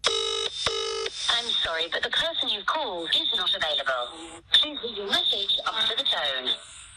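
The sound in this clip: Two short bursts of electronic phone tones as a mobile phone call is dialled, followed by a person talking at length over a steady high-pitched whine.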